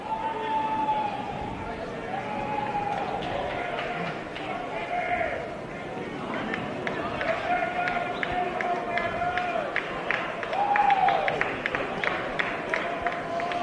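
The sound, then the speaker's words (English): Crowd of Knight fans at a baseball game making noise, a steady murmur and cheer with a brief swell near the end, under an announcer's voice. “The Knight fans have been quiet, but they're making a little noise now.”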